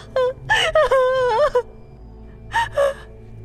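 A person cries in wailing, moaning sobs broken by sharp gasps. Several bursts crowd the first second and a half, then comes a pause and two short sobs near the end.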